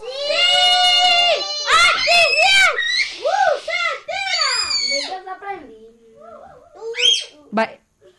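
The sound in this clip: Children scream and shout in a run of loud, high-pitched vocal bursts that rise and fall, then grow sparser and quieter toward the end.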